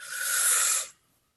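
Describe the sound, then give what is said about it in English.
A deep breath drawn in during a guided meditation: one loud, airy inhale with a steady hiss lasting just under a second, then cutting off abruptly into near silence. “So now sit comfortably. Get yourself really nice and comfortable. Take a deep breath in,”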